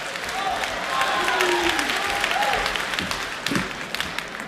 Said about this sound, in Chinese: 热烈掌声有请高小潘、尤宪超、韩硕为您带来传统相声师傅经，咱们掌声有请三位。